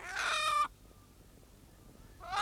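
Hens clucking on a neighbour's lawn: a loud burst of squawking clucks, then a near-silent gap before another burst of clucking starts at the end.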